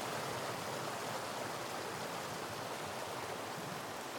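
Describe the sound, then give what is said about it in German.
Rushing flood water played as a sound effect: a steady, dense roar of even noise that runs without breaks or voices. “Kannst du mal die Flut bringen? Hast du sie schon gebracht? Bring mal die Flut, ja.”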